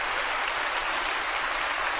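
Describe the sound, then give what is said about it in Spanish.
A brief stretch of audience applause for stage performers, an even, dense wash of clapping with no voices above it. “No negaremos que también saben sacarle provecho al aplauso.”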